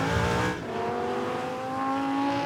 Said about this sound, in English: The drifting Lamborghini was based around the Lamborghini Huracan standard 5.2-litre V10 engine.